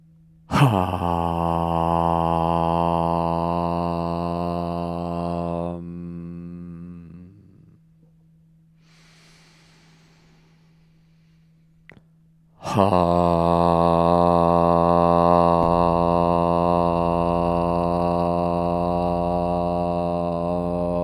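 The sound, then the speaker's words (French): Chanting of the syllable HAM on an exhale: two long, steady, resonant voiced tones, each held for several seconds, separated by a quiet pause with a faint hiss and a low drone underneath. “et vous vous préparez à chanter le son HAM, H, expirez.”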